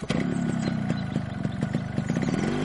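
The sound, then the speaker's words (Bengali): A motorbike rides off with its engine running in a steady, rumbling chug. The sound stays fairly loud throughout, with regular clattering pulses. “পাণ্ডেজি তার bike নিয়ে অফিসের উদ্দেশ্যে রওনা দিলেন।”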